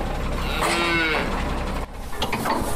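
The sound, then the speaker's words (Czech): Scottish Highland cattle mooing inside a truck arriving at a former shooting range: loud, drawn-out low moos over a constant background rumble. “K bývalé střelnici se teď blíží nákladní vůz naložený skotským skotem.”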